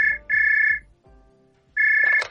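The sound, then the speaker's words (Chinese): A telephone rings at home with loud, steady electronic ringtone bursts: a short one, a longer one, a pause, then a third burst. No voices are heard. “没多久电话又响”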